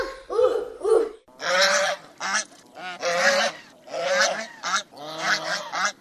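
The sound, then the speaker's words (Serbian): A goose honks in a long, irregular series of loud, harsh, nasal calls. The calls come in short bursts separated by brief gaps. “Je li to guska?”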